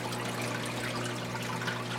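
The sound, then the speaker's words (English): Water circulating through many small axolotl tanks lined up on shelves in a closet-sized room at a veterinary school: a steady, soft trickling hiss over a constant low hum, unchanging throughout. “Inside a room no bigger than a walk-in closet at the UC Davis School of Veterinary Medicine, shelves are full of small tanks with circulating water.”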